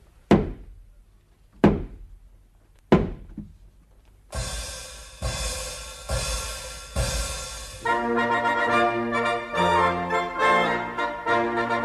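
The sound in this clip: Three loud, sharp knocks against a door, evenly spaced, stand alone before music enters and continues to the end. They come from a 1954 opera recording.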